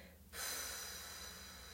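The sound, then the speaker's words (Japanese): A deep breath taken during a guided relaxation breathing exercise: a steady, airy rush of breath begins after a brief quiet moment and holds at an even level to the end. “イライラとかモヤモヤは息と一緒に吐き出してデトックスしちゃいましょう吐き切るはい最後吸ってたっぷり吸って吐きます”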